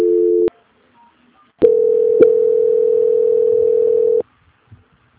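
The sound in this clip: Telephone tone while a call is transferred: a short steady tone, a pause, then a longer unbroken tone of the same pitch, with a faint click partway through and quiet after.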